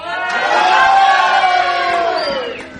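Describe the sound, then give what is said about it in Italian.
A school class of children lets out one big shouted cheer together, many young voices merging into a single loud, sustained yell that sags in pitch and trails off near the end. “Forza Napoli, e facciamo un grande urlo per farci sentire della classe terza E.”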